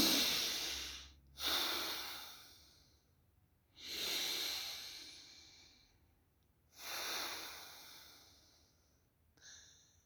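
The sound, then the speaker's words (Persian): Slow, audible breathing in and out through the nose during a meditation breathing exercise: soft, airy hissing that swells and fades in several long, even waves with short pauses between, with no talk. “خیلی راحت، با بینی خودتون دم و بازدم انجام میدین طوری که صداش رو بشنوید.”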